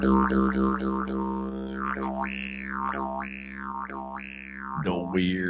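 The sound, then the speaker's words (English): A didgeridoo plays a deep, sustained drone with rhythmic wah-like swells, quick pulses at first and then slower, broader sweeps, ending in a sharper, brighter burst. “It's not a didgeridoo, is it? It is a didgeridoo.”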